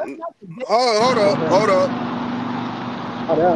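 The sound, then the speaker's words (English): Low, steady engine drone of a tractor or lawn equipment running at night, humming under a talking voice. “Yo, I'm driving a tractor or something. Bro, it's nighttime. Why are you doing lawn work?”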